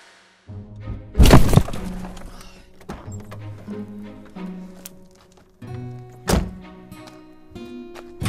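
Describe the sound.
A car crashes into another car with a loud crunching impact, followed by quieter knocks and rattles. A second sharp bang comes later, over a steady tonal background.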